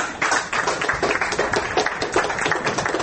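Applause breaks out among people in a courtroom after a court ruling: dense, steady clapping that fills the whole clip at an even, fairly loud level, with no talk.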